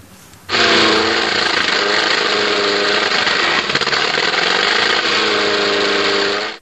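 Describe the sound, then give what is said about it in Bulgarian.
Engine of a homemade amphibious vehicle, so far driven only on land, kicks in abruptly after a short pause and runs as a loud, steady, buzzing roar to the end. “Машината все още пътува само по суша, но предстои да бъде оборудвана за плаване, както и за движение по снега, обясни майсторът Георги Георгиев от Исперих”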